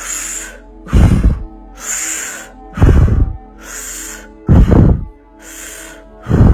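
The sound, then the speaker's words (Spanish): Deep breaths are drawn in and pushed out through the mouth during a guided breathing exercise. Softer hissing inhales alternate with louder, rougher exhales across about four slow cycles, with no talking. “Vamos a absorber el aire y a soltarlo solo con la, con la boca. Y vamos a iniciar haciendo inhalación y exhalación.”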